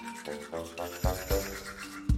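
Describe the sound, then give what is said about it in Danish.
A toothbrush scrubs teeth in a few bristly strokes, with the loudest rasps bunched near the middle and the end, each a short burst of brushing noise. “Forestil dig, at du står og børster tænder.”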